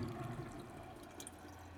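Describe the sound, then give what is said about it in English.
Water runs from a tap into a white porcelain sink in a cell, the basin filled with red liquid, a faint, steady rushing flow with no voices. “A tap is run to wash some of it down the plug hole, out of sight.”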